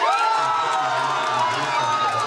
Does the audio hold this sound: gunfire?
no